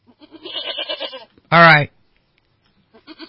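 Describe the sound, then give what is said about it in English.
A small goat used for grazing down fire hazards such as manzanita lets out a single loud, harsh bleat. People talk before and after it. “That is the sound of a goat.”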